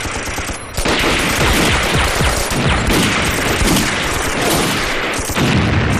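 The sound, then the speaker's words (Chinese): Sustained gunfire in a combat firefight as shooters engage targets, dense rapid bursts of loud shots piling almost continuously, dipping briefly near the start before resuming at full force. “发现目标，自行射击，打完就动。”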